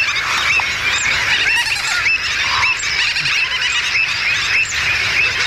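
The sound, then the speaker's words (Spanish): Wetland bird colony of terns, gulls, stilts, avocets and flamingos calling, a dense, loud, unbroken chorus of overlapping honks, squeals and shrill cries that fills the whole stretch without pause. “podemos escuchar ese trabalenguas formado por pagaza, pico negra, charrán, pati negro común, gaveta reidora, boceta, cigüeñola, flamenco, de todo.”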